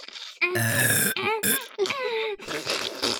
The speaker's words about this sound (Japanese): 同時ゲップですよ